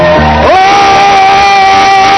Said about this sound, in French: Est-ce que tu peux acclamer le Seigneur Jésus? Est-ce que tu peux pousser les cris de joie?